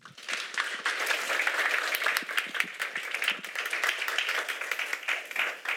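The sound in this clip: Applause at Koinonia Evangelical Church as a pastor and a second speaker are welcomed, many hands clapping in a lively, even patter with distinct sharp claps poking through the steady wash.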